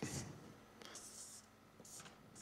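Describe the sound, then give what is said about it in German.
Scratchy pen or marker strokes on paper or a board, a few short hissy bursts of writing with quiet gaps between them. “also ich schreibe mal, da steht jetzt”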